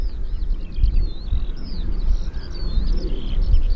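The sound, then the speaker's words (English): Skylarks singing over a nature reserve in Essex: faint, continuous high-pitched warbling trills over a steady low wind rumble. “Oh, listen, it's the skylarks again.”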